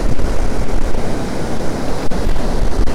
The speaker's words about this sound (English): It's quite windy here, but it's nowhere near as bad as the atrocious conditions the last time I was here,